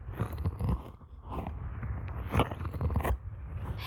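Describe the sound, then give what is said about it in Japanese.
Wet ASMR ear-licking mouth sounds, with moist smacks, slurps and clicks in an uneven rhythm and a few louder wet licks standing out. “どうですか、耳なめの実力は。なかなかいい、”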